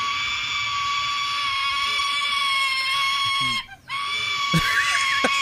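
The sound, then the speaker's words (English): A sulfur-crested cockatoo chick screams for food from its mother: a loud, continuous, harsh rasping cry, high and strained, that breaks off briefly near the middle and then resumes. “So this is the sound of a sulfur-crested cockatoo screaming for its mother to feed it.”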